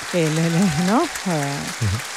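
Shouts of bravo rise from an opera audience in the theatre's upper gallery over a steady wash of applause: a few drawn-out voiced calls that slide in pitch.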